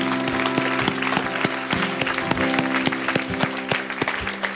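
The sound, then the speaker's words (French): An audience applauds in an ovation during a Sunday church service: dense, sustained clapping that stays loud and even throughout, with a steady low tone running underneath. “Ce matin, lui donne une grande ovation pour la croix.”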